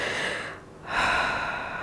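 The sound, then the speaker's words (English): A man takes a deep breath: a soft, airy exhale fades into a brief lull, then a loud, rushing inhale swells and slowly tapers off. “He takes a deep breath.”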